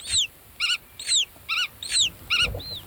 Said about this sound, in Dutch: En wat je hier hoort zijn grutto-ouders die rondvliegen boven het veld en communiceren met hun jongen in het ei.